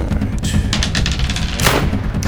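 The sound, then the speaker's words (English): Rifle gunshot sound effect during a tabletop role-playing game: one sharp, loud crack near the end, amid a busy rumble of smaller bangs and thuds. “I'll take aim with my rifle.”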